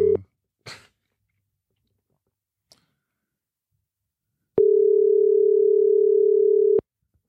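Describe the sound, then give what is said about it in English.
Ringback tone on an outgoing telephone call: a few short clicks, then silence, then a single steady low-pitched tone of about two seconds that cuts off abruptly. “So the phone is ringing.”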